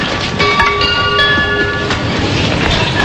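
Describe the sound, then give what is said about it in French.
A passenger train in a station gives a continuous loud rumble of rolling carriages, with thin, high whining tones laid over it for a couple of seconds. No speech is present. “Départ 18h56 en direction de Bruxelles. Veuillez monter en voiture. Maintenez les portières fermées, s'il vous plaît.”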